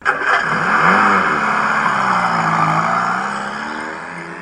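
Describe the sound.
A car drives off, its engine revving up with a rising whine at the start, then settling into a steady mid-pitched drone that slowly fades toward the end.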